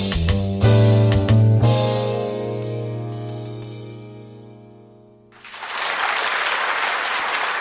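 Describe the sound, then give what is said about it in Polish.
Studio audience applause breaks out after a musical passage fades away, then continues as steady, dense clapping to the end. “Takich braw to ja jeszcze nie miałem.”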